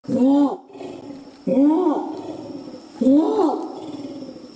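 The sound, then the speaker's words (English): A Sumatran orangutan calls from high in the rainforest canopy of Gunung Leuser National Park in northwest Sumatra. It gives three loud, deep, roaring calls at even intervals, each bending up then down before trailing into a low rumble. “That's the sound of Rakus, the Sumatran orangutan. He is sitting high up in the canopy of the Gunung Leuser National Park in northwest Sumatra,”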